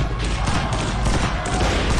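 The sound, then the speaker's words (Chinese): Gunfire as foreign concession police shoot into a crowd of protesters demanding the release of arrested students, a dense, continuous crackle of rapid shots filling the whole clip. “因帝国主义的巡捕向人群开枪，造成了多人死伤。”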